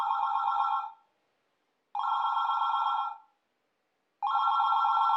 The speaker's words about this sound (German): Das Telefon klingelt. Das Telefon klingelt.